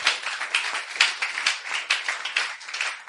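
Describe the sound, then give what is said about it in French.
Applause from a church audience welcoming newcomers, a dense patter of many hands clapping steadily and fairly quietly throughout. “Est-ce qu'on peut acclamer pour ces personnes?”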